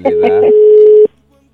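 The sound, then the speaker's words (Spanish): A telephone ringing sounds as a single steady tone lasting about a second. A voice briefly overlaps its start, and then the tone continues loud and unbroken until it cuts off. “Sonando, está el teléfono.”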